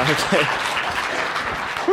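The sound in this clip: Audience applause welcoming a speaker onto a stage: dense, steady clapping fills the whole stretch at an even level, with voices mixed in underneath.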